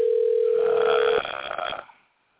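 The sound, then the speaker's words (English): A telephone rings on a sports talk show's phone line: one steady, even tone that holds for just over a second, then cuts off into a brief burst of noise that quickly fades to silence. “Well, we've got phones ringing”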